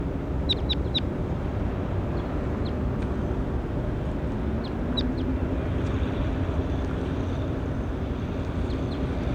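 A bird calling in short, high chirps that come in a few scattered bursts, faint over a steady low rumbling background, with no talk.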